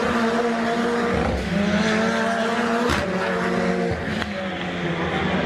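Volkswagen race cars roar around a circuit during a rookies cup race, a loud, steady blend of engine drones with layered tones that shift and overlap as the cars run, continuing without a break.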